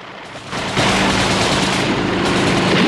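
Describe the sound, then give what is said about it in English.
Machine gun turret fire from guards on an oil rig platform during a helicopter attack: a loud, dense, continuous burst of rapid shots that grows heavier after the opening moments and holds steady to the end. “As the choppers buzz past, Blofeld's guards open fire with the machine gun turrets.”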